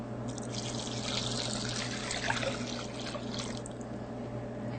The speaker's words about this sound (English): And now we can add our vegetable broth, 2 cups of vegetable broth, and 4 cups of water.